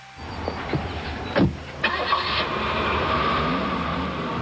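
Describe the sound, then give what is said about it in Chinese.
A car engine starting: a couple of sharp mechanical clicks and a brief crank, then the motor settles into a steady, even running hum. “启动车后打开了暖风，车子里瞬间温度变得很高。”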